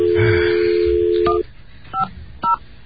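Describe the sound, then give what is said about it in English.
Telephone dialing tones: a steady held tone gives way to three short, sharp keypad beeps, each a bright two-pitch chirp spaced apart, with no talk over them. “let's not dial his number out in the clear.”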